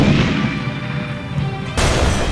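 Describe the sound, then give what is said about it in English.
A cruise missile launches in a video game with a sustained, loud, roaring rumble. The roar surges abruptly stronger shortly before the end. “I did launch the cruise missile. It's happening over here.”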